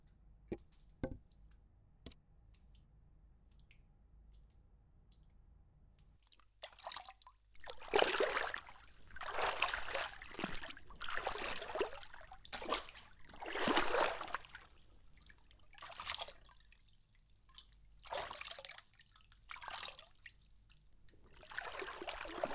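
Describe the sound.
Hot bath water trickles and splashes in irregular bursts after a quiet opening of a few seconds, with a few faint clicks before the flow begins.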